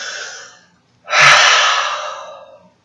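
Deep breaths taken by people together: a shorter rushing breath, a brief silence, then a long, loud, airy breath that slowly fades away.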